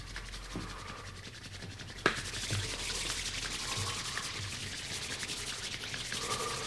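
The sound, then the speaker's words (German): Hands rub together vigorously to warm them, as a relaxation exercise. The friction makes a soft, steady brushing sound that continues throughout, with one brief sharp tap early on. “Einfach mal die Hände ganz heiß reiben.”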